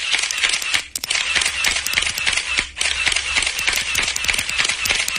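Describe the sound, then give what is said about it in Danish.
Ballpoint pen clicking in a dense, rapid stream of sharp, dry clicks that runs almost without a break, loud throughout with only brief dips. “Har du en kuglepind? Ja. Prøv at klikke med den.”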